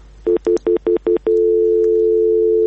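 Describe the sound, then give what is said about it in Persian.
Telephone line tones after a radio call-in caller's connection drops: six short, evenly spaced beeps, then a steady, loud continuous tone that holds to the end. “خب فکر میگم تماس برادر مقطع شد.”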